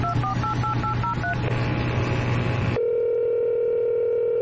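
A telephone dial tone, a steady low hum that holds alone for nearly two seconds, heard after a quick run of keypad beeps and a short burst of rough noise.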